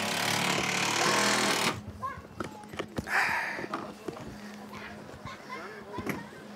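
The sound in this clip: Wood is hammered into a worn wooden playground boat: a loud stretch of noise gives way to many sharp, irregular knocks, with voices talking between them.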